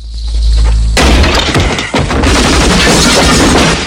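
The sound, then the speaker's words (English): Gunfire tears wooden boards out of a house's walls: a low rumble gives way to a sudden loud crack, then sharp bursts with cracking, splintering and shattering debris. “He fires off rounds, knocking wooden boards out of the house walls.”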